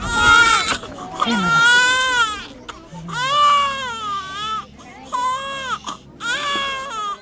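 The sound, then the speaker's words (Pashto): Malnourished children cry in loud, repeated wailing bursts with a warbling pitch, separated by short pauses. A lower voice is heard briefly between the cries. “په دغه ماشومانو کې یوه داسې ډله هم ده چې ژاړي”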